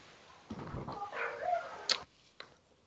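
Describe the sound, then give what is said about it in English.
Dogs barking in the background give a few faint, scattered barks and sharp yips, some short and one more drawn out, with quiet gaps between them. “As my dogs go nuts in the background, sorry.”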